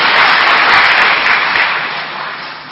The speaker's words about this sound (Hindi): वाह वाह वाह बहुत अच्छा, हाँ ताली बजाओ।